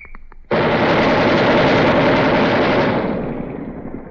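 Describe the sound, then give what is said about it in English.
A 20 millimeter machine gun barrel on a two-barrel gun firing at a weapons demonstration: a sudden, loud burst of rapid fire merging into a continuous roar for about two and a half seconds, then tapering off as it echoes away. “that gun, machine gun, has two barrels, and they've just taken out the 60 caliber which was fired, and they're going to throw the 20 millimeter into it, and we'll hear that in a second.”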